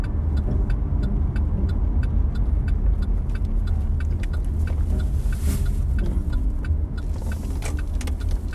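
Steady low rumble of a car being driven and pulling in, a continuous road and engine drone with faint regular ticking above it throughout, no voices.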